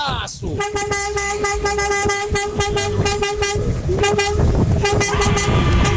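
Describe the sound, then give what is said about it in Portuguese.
Car horns honking at a drive-by horn-honking event, a loud sustained horn tone with several overlapping honks over steady traffic rumble, while people talk throughout. “Aí, é a nossa amiga buzinando também, tá vendo?”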